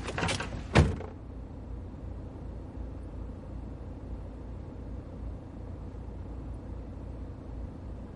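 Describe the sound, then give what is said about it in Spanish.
Someone removes a seatbelt and gets out of a car: a few sharp clicks and a thud close together in the first second, then a long stretch of faint, low rumble. “Se quita el cinturón, baja del coche y se aleja.”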